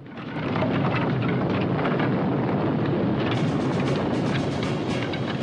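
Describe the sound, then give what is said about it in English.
A hut explodes in a huge orange fireball in an action film scene. The blast swells quickly into a loud, sustained roar that stays steady and dense to the end. “He clicks the trigger, and behind him, Yin's hut explodes in a burgeoning orange fireball.”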